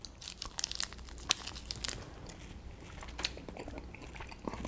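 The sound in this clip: Chewing chocolate filled with marshmallow and raspberry jelly: many crisp, crinkly bites and wet crunches in an uneven rhythm, fairly faint, with no talking.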